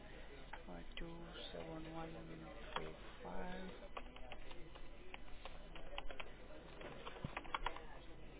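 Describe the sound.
Computer keyboard typing as charges are entered for a patient's payment at a billing desk, with soft rapid key clicks running under people talking.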